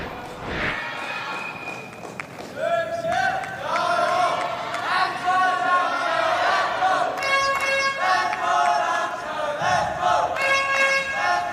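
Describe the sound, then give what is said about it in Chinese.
Teammates shout and cheer on a badminton player during a match, loud sustained voices rising and falling in chant-like calls over crowd noise throughout. “现在施玉琪的队友也在为他加油啊！”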